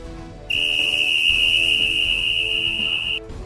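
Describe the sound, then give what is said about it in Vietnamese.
A piercing whistle blast rings out suddenly and holds one high, steady pitch for nearly three seconds before cutting off, loud above a soft musical background. “bỗng nghe thấy một tiếng còi đinh tai vang lên.”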